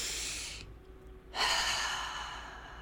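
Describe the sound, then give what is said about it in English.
A deep breath taken during a guided wellness exercise, heard as a soft airy breath followed by a louder, longer breath sound that slowly fades. “I'd like us all to take a deep breath together.”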